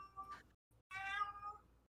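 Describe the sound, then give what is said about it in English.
A cat meows twice, quietly. The first meow is short and the second is longer and drawn out, with a tiny chirp between them. “I think my cat's dying.”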